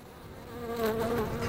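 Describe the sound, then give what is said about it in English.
Managed European honeybees buzz on a truck, a dense, continuous droning hum that wavers slightly in pitch and loudness, with no voices. “Managed colonies, like the European bees on this truck, have worked with man for thousands of years.”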